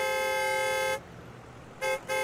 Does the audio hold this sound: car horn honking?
yes